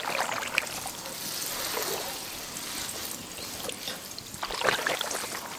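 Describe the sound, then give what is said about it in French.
Water pours and splashes from a large, heavy watering can as it spills everywhere, a continuous gushing, trickling rush lasting several seconds with a few louder splashy surges. “S'écrie-t-elle en renversant de l'eau partout.”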